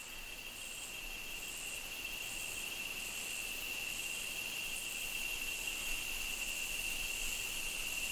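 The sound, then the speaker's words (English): Insects fill a tropical rainforest at night, around one or two in the morning, with a dense, shrill, high-pitched drone. A faint pulsing layer rides on top, and the sound holds steady throughout with no voices. “if in a tropical rainforest, for instance, you begin to listen at around 1 or 2 in the morning, the first thing you hear are the insects.”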